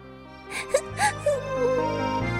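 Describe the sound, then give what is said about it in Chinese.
A princess cries sadly after being turned away from the palace: a few short, breathy gasping sobs come first, then a drawn-out, wavering high moan, all over a steady, soft sustained background tone. “艾丽莎公主伤心地哭了”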